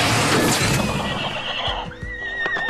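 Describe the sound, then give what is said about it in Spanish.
A frightened horse whinnies loudly after a slammed door startles it, with hoofbeats clopping along as it runs off. “Con el ruido de la puerta, el caballo corrió asustado, alejándose con el tronco y la puerta.”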